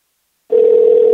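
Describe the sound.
A steady telephone tone from a phone being tried out starts abruptly after a short silence, then holds at one even pitch, loud and unbroken.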